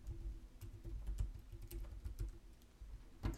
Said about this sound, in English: Alright, so I'm going to a group and I'm typing in local entrepreneurs.